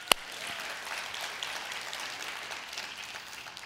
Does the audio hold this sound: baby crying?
no

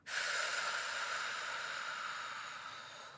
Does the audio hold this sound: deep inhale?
yes

